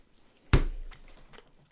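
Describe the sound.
A crisp crunch of bread being bitten and chewed, one loud sharp bite followed by a few faint, softer chewing sounds.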